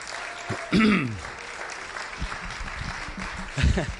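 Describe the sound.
Applause at a church service greets a guest speaker, the pastor's daughter. Clapping holds a steady, even texture throughout, with two brief louder swells where voices break in.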